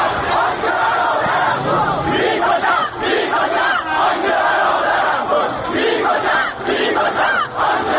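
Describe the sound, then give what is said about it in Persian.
Protesters marching and clashing with security forces on a Tehran street on 25 Khordad 1388 (June 2009) create a dense, loud crowd roar with overlapping shouts and cries, sustained for the whole stretch with only brief dips. “خیابان تهران در روز 25 خرداد سال 88 به راهپیمایی معترضان و درگیری آنان با نیروهای امنیتی بدل شد”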